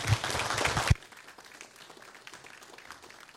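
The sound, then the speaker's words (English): Church audience applause welcoming a guest speaker: a loud, dense wash of clapping that cuts off abruptly, leaving near quiet afterward. “As he comes and shares the Word of God, let's give him a hand and welcome him to Community Fellowship.”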